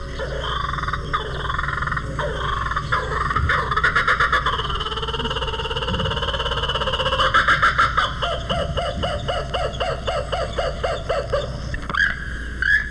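Call of a kookaburra, the laughing jackass bird: harsh chuckling notes build into a loud, rapid, rhythmic series of cackling bursts, with no other sounds.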